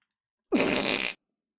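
A single loud fart, about half a second long, with a rough buzzing tone that trails off abruptly, heard alone against silence.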